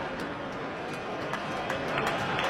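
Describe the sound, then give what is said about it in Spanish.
A baseball crowd applauding and calling for a strikeout during a two-and-two count, forming a dense, steady wash of crowd noise with scattered claps throughout. “El público empieza a aplaudir, pide el ponche.”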